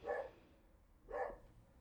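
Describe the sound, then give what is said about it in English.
A dog barks at pedestrians passing by: two short, faint barks separated by a pause of about a second, with nothing else heard. “Now we have a little barking break. I hope you can hear Arya barking at pedestrians for no reason.”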